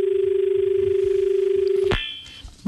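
A telephone tone comes through on a radio phone-in as a call arrives, a steady, slightly pulsing buzz lasting about two seconds. A sharp click cuts it off, and quieter line noise follows.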